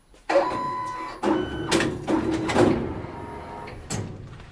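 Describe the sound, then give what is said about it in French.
A T-shirt printing machine prints on a blank T-shirt, giving several irregular mechanical clunks and whirring bursts of moderate loudness, with short gaps between them. “Donc là, on va vous imprimer un t-shirt. On a toujours des t-shirts à imprimer.”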